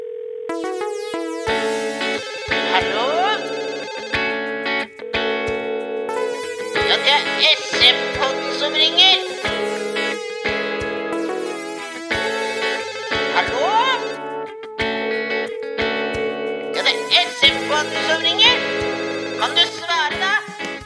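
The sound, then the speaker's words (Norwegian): A telephone ringing tone for an outgoing call sounds again and again for about twenty seconds, bright and electronic, fairly loud and fairly steady throughout. “Nei, vet du hva? Nå skal vi ringe.”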